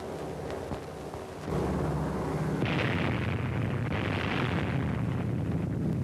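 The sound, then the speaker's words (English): Atomic bomb detonation during a test: after a quieter opening, a deep, roaring rumble surges in and rolls on continuously, with a brighter crackling burst partway through. “There it goes. The fourth atomic bomb has been successfully detonated.”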